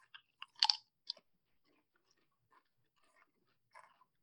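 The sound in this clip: Crisp crunching from chewing Lay's fried green tomato potato chips: a few sharp, dry crunches close together early on, the loudest among them, followed by sparse faint crunches and mouth noises in near silence.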